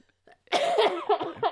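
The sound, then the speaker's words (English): Coughing right into a microphone: a short, loud cluster of a few harsh coughs after a brief quiet start. “You got to cut that crap out. You can't be coughing in the microphone.”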